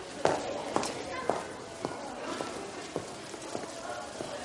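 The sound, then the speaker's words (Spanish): Footsteps walk through school corridors at a steady, even pace, each step a light, crisp tap on a hard floor, with faint voices murmuring behind them. “Camina por los pasillos de la escuela.”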